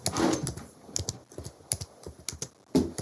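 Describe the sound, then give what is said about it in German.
Keyboard typing as someone writes a quick note: many quick, uneven clicks in short bursts and pauses, fairly soft and with no talk. “ich schreibe das bloß mal schnell auf, weil sonst vergesse ich das”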